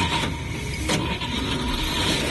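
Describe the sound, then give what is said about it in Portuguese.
A Chevrolet Chevette car engine being started, heard as a steady, loud mechanical rumble. A short, sharp burst of noise breaks in partway through, and then the steady running sound continues to the end. “vamos que vamos ligar o nosso chevetinho.”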